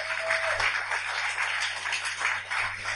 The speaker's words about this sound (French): Levez-vous s'il vous plaît, on a fini. On n'a pas beaucoup de temps. Alléluia. Est-ce qu'on peut acclamer le Seigneur?